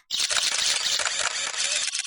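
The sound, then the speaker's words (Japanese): Camera shutters click in a dense, rapid flurry as many people photograph a cosplay event at a convention hall. The clicking is loud and continuous, overlapping without pause. “いやー、皆さん撮りすぎです。”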